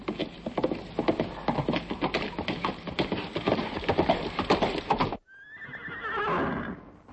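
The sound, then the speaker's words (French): A horse gallops in a forest, its rapid, irregular hoofbeats pounding loudly for about five seconds before stopping abruptly, followed by a high, quavering whinny. “Soudain, le jeune roi entendit le son saccadé des sabots d'un autre cheval.”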